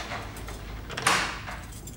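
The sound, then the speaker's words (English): Bolt on a door sliding shut: one brief metallic scrape and clack, moderately loud against a faint, steady background. “The nun switches off the light and leaves. The bolt on the door slides home.”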